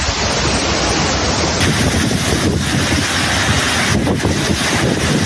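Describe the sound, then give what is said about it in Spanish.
Storm floodwaters and wind from a DANA storm sweeping through Albacete form a loud, continuous roar of rushing water and gusting air, steady throughout with no voices. “Este es el sonido de la Dana en Le Tour a su paso por Albacete”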